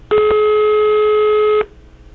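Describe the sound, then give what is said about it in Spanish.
Outgoing telephone call ringing with no answer: a single steady electronic tone lasting about one and a half seconds, loud and alone, then cutting off into faint background. “La estamos llamando. Vaya, no contestan.”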